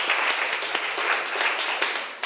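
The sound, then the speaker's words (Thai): Classmates give a short burst of applause for a student who answered correctly in a lesson: many overlapping claps at an even, moderate loudness that stop abruptly at the end. “ถูกต้องค่ะเก่งมากปรบมือให้เพื่อนหน่อย”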